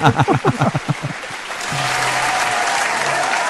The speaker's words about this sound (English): Let's give her a big round of applause.